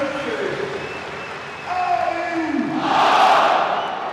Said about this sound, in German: Hört euch das mal an, die Aufstellung. Gerade auch die Local Heroes, wie die hier begrüßt werden. Ist ja selten, dass man sich bei einer Aufstellung die Ohren zuhört. Jetzt hört euch das an.